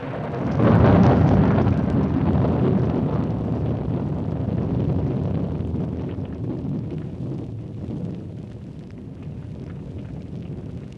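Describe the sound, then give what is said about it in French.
Rumbling thunder, used as a stage sound effect for thunder with lightning in a 1950 stage production of a Molière play: a deep, broad roar swells within the first second, then slowly fades over about eleven seconds, with no voices. “Le tonnerre tombe accompagné d'éclairs. La terre s'ouvre.”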